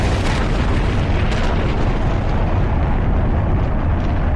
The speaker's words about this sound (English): Mission Control, we have blastoff.